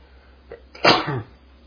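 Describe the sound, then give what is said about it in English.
A single human sneeze: a faint short intake, then a sharp, loud burst that tails off quickly, heard alone with no talking. “can't do anything about sneezing, it just happens.”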